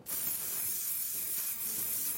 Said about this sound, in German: Ich habe doch hier irgendwo Haarspray mitgenommen. Dann würde ich sagen, wir probieren das aus. Wir sprühen deine Unterhose fett ein.